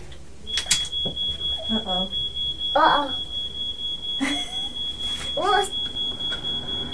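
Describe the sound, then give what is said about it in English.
A smoke alarm goes off in a home, giving a steady, piercing high electronic tone that runs almost the whole time while an adult and a young child talk over it. “That's a smoke alarm. Yeah. Daddy's set off the smoke alarm, hasn't he?”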